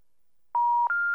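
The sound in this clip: Two steady electronic telephone tones play back to back with no talk: a clear pure beep, a brief gap, then a second, slightly higher beep held to the end.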